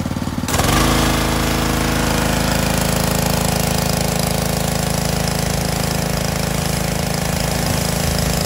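A pressure washer runs while spraying water on a house exterior to clear mold. Its loud motor kicks in within the first second, then holds a steady, rapidly pulsing mechanical drone to the end.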